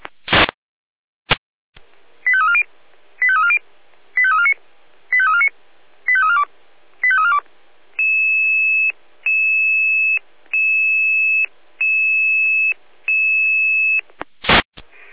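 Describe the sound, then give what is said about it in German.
Fire brigade dispatch alerting tones: a few sharp electronic bursts, then six short warbling tone pulses, then five longer steady high beeps in an even rhythm, and a final burst, loud and alone. “Dispatcher hier mit Alarmierung.”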